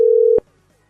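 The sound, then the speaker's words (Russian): A telephone dial tone plays during a call being redialed. The single steady, mid-pitched hum sounds loud and alone, then cuts off abruptly after a fraction of a second. “еще раз набираю.”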